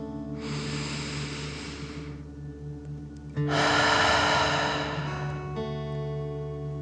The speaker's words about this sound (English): Fill up your belly. Deep breath. In and out.